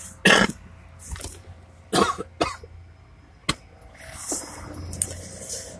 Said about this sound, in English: Excuse me, got to get that mucus out.